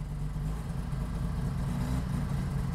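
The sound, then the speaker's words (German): A Ro80 classic car engine idling with a steady, even low rumble that holds constant throughout, with no revving. “So, da ist er. Der RO80 ist ein Kultauto.”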